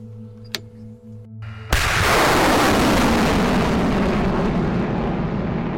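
Sudden, very loud roaring blast of a HIMARS rocket launch fired by soldiers, bursting in after a quiet stretch and becoming a sustained broad rushing roar that slowly fades over several seconds.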